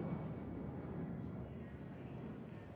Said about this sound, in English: Exterior, L.A. International Airport. Day. The sun is shining.